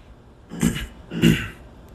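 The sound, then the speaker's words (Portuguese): A man clears his throat, with two rough, raspy bursts separated by a short pause and no speech around them. “Isso na garganta é porque estamos trabalhando muito forte no chakra laríngeo dele. Por isso tem essa espécie de pigarro.”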